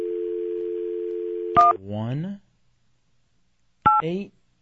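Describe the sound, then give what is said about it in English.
Touch-tone dialing on a telephone: a steady dial tone cuts off at the first key beep, then a second key beep follows a couple of seconds later, each beep trailed by brief voiced sounds. “let's call the governor. How do I dial on this thing?”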